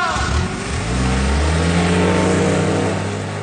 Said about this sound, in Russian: Машина внезапно взревела и, подняв тучу пыли, унеслась.